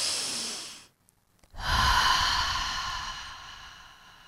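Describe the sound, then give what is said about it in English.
A deep breath is taken in through the nostrils and let out through the mouth: a breathy rush, a short silent pause, then a louder, fuller airy exhalation that slowly fades away. “Let's raise our vibration, listeners, with a deep breath through the nostrils and exhalation through the mouth.”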